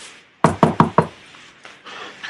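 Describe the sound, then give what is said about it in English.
Four sharp knocks on a door come in a quick, even rhythm, followed by a couple of fainter, softer thumps. No one speaks. “So yeah, I'll go knock on Professor Cromworth's door.”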